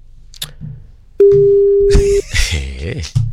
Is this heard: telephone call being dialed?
yes